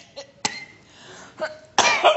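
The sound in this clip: A person with a persistent cough coughs a few times in short, sharp bursts separated by brief pauses, and the final cough is louder and longer.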